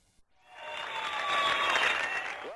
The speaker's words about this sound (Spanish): Menudos aplausos ha ganado Aznar Collar.